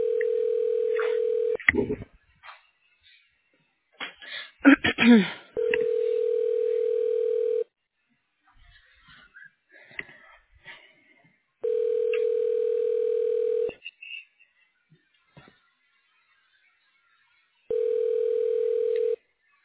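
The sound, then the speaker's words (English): Telephone ringback tone sounds while a caller is transferred to a hospital office. Four steady, even tone bursts of about two seconds each are separated by quieter gaps that hold brief clicks and faint murmurs. “Well, I could transfer you to the his office. Hold on.”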